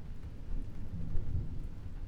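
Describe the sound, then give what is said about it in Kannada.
Thunder rumbles low and heavy over a steady hiss of rain, swelling slightly in the middle, with no voices. “ಗುಡುಗು ಸಿಡಿಲು ಆಕಾಶದಲ್ಲಿ ಕಾಣಿಸ್ಕೊಂಡ್ವು ಅಂದ್ರೆ ಮಳೆ ಬರುತ್ತೆ ಅಂತಾನೆ ಲೆಕ್ಕ ಅಲ್ವಾ”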